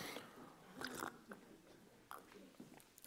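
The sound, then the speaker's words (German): Someone drinks with a few very quiet gulps and wet mouth sounds, and soft breaths fall between them. “Sorry, dass ich da vor euch trinke.”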